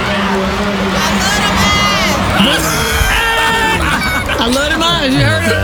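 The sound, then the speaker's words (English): A theatre audience cheers for actor Michael Ealy as his casting is announced, a dense, continuous wall of high shrieks, whoops and screams with no break. “And here is Michael Ealy gets announced. And listen to the audience, though. They wouldn't stop. This went on for about a minute or two.”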